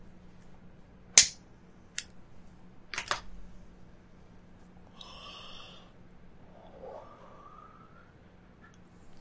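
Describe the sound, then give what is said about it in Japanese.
Lighting and smoking a Hi-Lite cigarette: a few sharp lighter clicks, then a short breathy hiss and a soft drawn-out exhale. No talk. “まあ最後なんで、一本吸って終わりにしたいと思います。”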